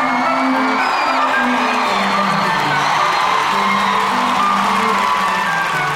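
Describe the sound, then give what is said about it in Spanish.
A crowd whoops and cheers in a loud, continuous roar to welcome two hosts onto a comedy show, with overlapping shouting voices held throughout. “Reciban con un fuerte aplauso a Don Diazepam y a Don Lexatin.”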